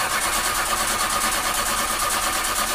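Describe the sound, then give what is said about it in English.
A car engine cranks and struggles to start, giving a steady, loud churning roar with a fast repeating pulse throughout and no voices. “When your car sounds like this,”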